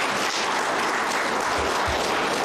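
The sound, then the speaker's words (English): Audience applause at a public event honouring correctional services in the Kunene region. Dense, loud clapping continues throughout without a break. “Please give them a round of applause.”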